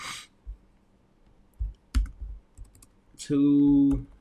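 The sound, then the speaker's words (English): Keystrokes on a computer keyboard, a few sparse clicks spread apart, then a sustained steady tone with clear harmonics near the end. “So what I'm going to do, I'm going to type in”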